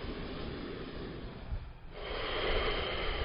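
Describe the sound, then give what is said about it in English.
A deep, airy breath during a yoga session, soft and steady, dipping briefly midway before swelling again slightly louder. “So maybe you bend your knees more for this last huge breath here.”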